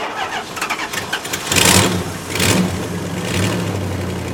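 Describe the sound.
A car engine, restarted after refuelling, cranks with rapid rhythmic churning, then catches and roars into a few loud revs that swell and settle between bursts.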